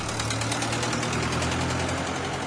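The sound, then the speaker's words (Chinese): A car engine runs with a steady, continuous low rumble as the car sets off with a group of tourists heading up a mountain to a paragliding launch site. “他们开车出发了。”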